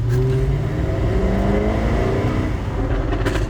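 A very noisy, fast car accelerating hard in first gear to about 20 miles an hour. The loud, continuous engine note climbs in pitch in repeated rising sweeps, with no talk over it.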